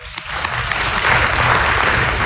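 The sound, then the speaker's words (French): Audience applause welcomes a guest introduced at an activist gathering, beginning with a few scattered claps and building into steady, full clapping that holds to the end. “Qu'on peut applaudir.”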